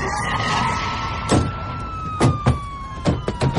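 A police siren wails as a SWAT team arrives, a steady tone sliding slowly downward in pitch, broken by several sharp, loud thuds in its second half.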